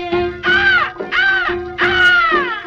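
Three harsh crow caws, each a long, slightly arching call with a short gap between them, sounding over steady background musical tones.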